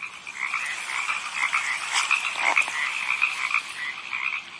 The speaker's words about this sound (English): That's the sound of the stream that I go to.